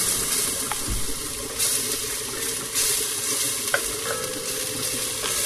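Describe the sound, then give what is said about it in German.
A thawed mushroom mix sizzles as it is stirred and sweated in a pan: a steady, fairly soft frying hiss broken by a few scraping stirs, with no talk. “angeschwitzt, dann können wir die mal drauf tun. Meistens ist es sowieso so, dass diese Pilzmischung, wenn die angetaut sind, eh etwas Farbe ziehen.”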